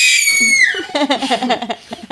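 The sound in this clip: A person screams without panic, in a high, sustained cry that slides down in pitch and then breaks into a string of short, wavering, pulsing bursts.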